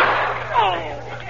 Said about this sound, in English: Well, that's what he was trying to do to me. My bullet got there first.